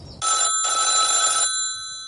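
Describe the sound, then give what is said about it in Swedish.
A telephone rings as a call is placed, giving two shrill, buzzing electronic ring bursts close together, the second longer, then fading into quiet. “Jag ska ringa henne. Fråga om inte hon kan lära mig att cykla.”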